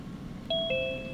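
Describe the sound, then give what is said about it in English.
An electronic doorbell with an 8-bit style rings two clear, pure beep tones in quick succession, the second a little lower in pitch and held longer as it fades. “Someone is ringing the bell. That sounded like something 8-bit.”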